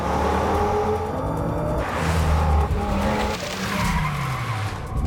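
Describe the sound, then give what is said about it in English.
A car reversing fast up the cobblestones of a quayside, engine revving hard under loud, continuous tire squeal and skidding, with the engine note sliding downward near the end. “He gets behind the wheel and reverses up the cobbles.”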